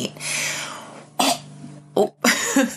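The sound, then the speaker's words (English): Dog hacking and coughing up a hairball: a few harsh, raspy retching bursts of uneven length, the first long and drawn out, then shorter throaty coughs, with no talk. “Sorry, we have a dog that's coughing up a hairball.”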